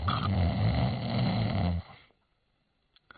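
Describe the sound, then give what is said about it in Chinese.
A voice imitates loud, rumbling snoring of a man asleep after dinner: one long, heavy snore at steady loudness, then it breaks off into near silence. “打呼噜，这呼噜震天”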